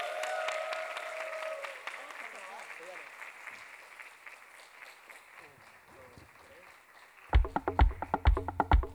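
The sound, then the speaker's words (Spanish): Audience applause at a live music show: a voice is heard briefly at the start, then dense clapping that gradually fades before music with a strong, punchy beat comes in. “Aplausos, aplausos.”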